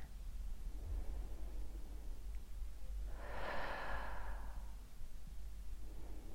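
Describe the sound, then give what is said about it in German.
One slow, deliberate breath is drawn audibly as a soft, airy rush over about two seconds, rising out of a faint hissing background with no talk. “Wir nehmen ein paar bewusste Atemzüge um uns auf die Situation einzustimmen.”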